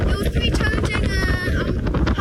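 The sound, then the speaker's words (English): Strong wind howls and buffets the microphone on a mountain peak, a loud, rough roar with heavy low rumble throughout the short clip, and muffled voices under it. “On top of the peak, the biting wind howls around and almost takes us off our feet.”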